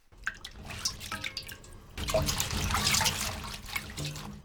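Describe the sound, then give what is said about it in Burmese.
Mustard greens being washed under running water: faint, irregular splashes and drips give way to a fuller, continuous flow of water that stays soft and steady to the end. “မုံညင်ရွက်ကိုရေးဆေးတဲ့အခါမှာအရင်ကိုတည်တည်ချာချာဆေးဖို့လိုပါတယ်”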